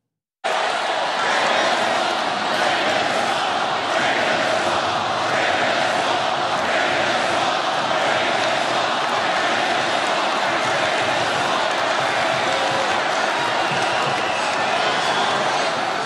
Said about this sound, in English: Take a look at some of what his audience was responding with. Here is one chant.